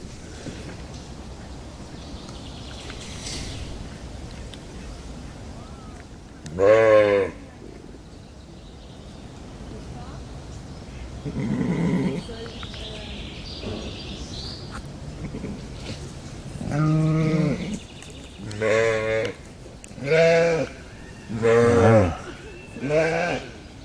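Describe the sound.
Goats bleat, including a mother goat, in a wavering, nasal series. One isolated bleat is followed by a cluster of several repeated bleats near the end, over a background of soft rustling and low noise.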